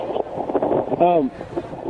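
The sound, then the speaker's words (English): Wind buffets a phone microphone outdoors, a rough, breathy rumble that runs under a person talking throughout. “I'm outside. It might be windy.”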